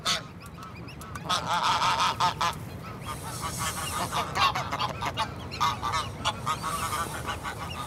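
A restless gander honking near his brood of goslings: many repeated nasal honks in an uneven rhythm, fairly faint, with other goose calls mixed in.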